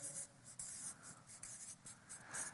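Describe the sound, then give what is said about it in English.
A pen or marker drawing circles by hand, soft faint scratching strokes that come in repeated swishes with small breaks between them, with no talk. “So I'm just going to draw those two circles, okay? I'm going to make it a little bigger.”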